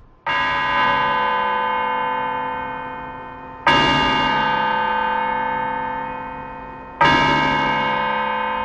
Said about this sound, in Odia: ଏତେ ପ୍ରଭାତରୁ ସତର୍କ ଘଣ୍ଟି କାହିଁକି ବାଜି ଉଠିଲା?